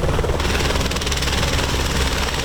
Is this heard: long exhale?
no